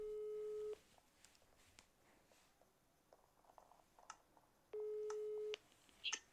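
Outgoing call ringing tone during a Skywars game session: two steady, mid-pitched beeps, each just under a second long and about four seconds apart, with faint scattered clicks and ticks between them and a brief louder click at the end.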